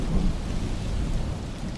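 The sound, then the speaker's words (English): Thunderstorm with heavy rain: a continuous hiss of rainfall over a deep, steady rumble of thunder. It stays fairly even in loudness throughout, with no distinct single crack standing out. “And a storm blows up with flashes of lightning.”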